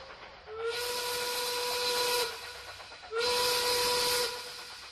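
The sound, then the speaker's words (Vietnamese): A train whistle sounds from a passenger train carrying a traveller home through bomb-scarred countryside: two long, steady, high tonal blasts over the continuous low rumble of the moving train. “Con tàu đưa tôi về quê em.”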